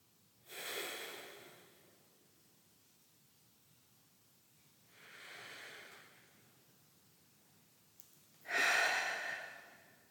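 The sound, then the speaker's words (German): Three slow, deep breaths during a guided heart meditation, airy rushing swells separated by quiet pauses, the last one loudest. “Drei tiefe Atemzüge in dein Herz und ausatmen aus deinem Herzen.”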